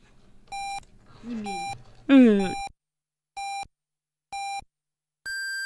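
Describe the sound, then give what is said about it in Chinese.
Hourly radio time signal on a Harbin station: a series of evenly spaced short mid-pitched beeps, the first ones overlapping voices and music, ending with a longer, higher-pitched final beep. “北京时间17点整， 这里是哈尔滨广播电视台综合广播。”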